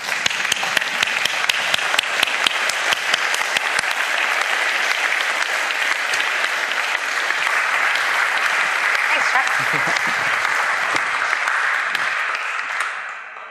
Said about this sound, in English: let's give her a standing ovation to even start with, just to welcome her here to New Church Live